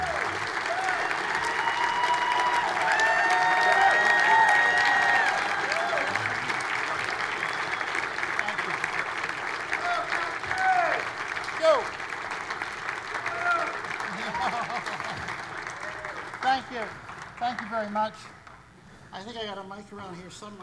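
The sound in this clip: A church audience applauds to welcome a pastor to the front, a steady, loud wash of clapping that holds for most of the stretch before thinning out near the end, with scattered voices mixed in.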